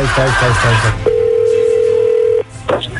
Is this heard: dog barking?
no

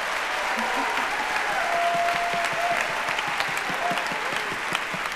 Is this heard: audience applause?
yes

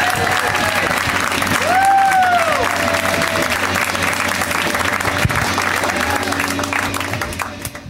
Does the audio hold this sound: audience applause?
yes

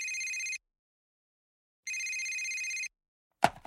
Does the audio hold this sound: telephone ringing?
yes

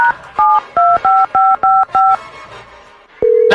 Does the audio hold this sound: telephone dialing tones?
yes

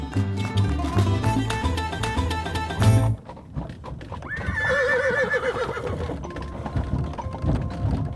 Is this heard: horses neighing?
yes

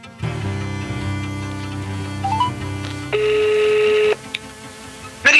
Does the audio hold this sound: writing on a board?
no

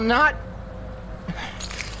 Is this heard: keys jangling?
yes

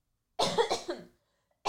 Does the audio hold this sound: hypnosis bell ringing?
no

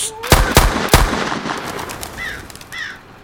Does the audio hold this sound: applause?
no

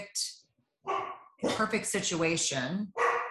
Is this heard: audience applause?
no

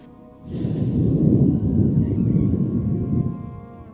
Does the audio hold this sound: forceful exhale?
yes

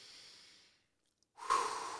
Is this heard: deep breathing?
yes

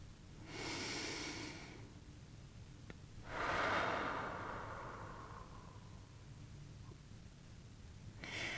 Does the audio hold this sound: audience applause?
no

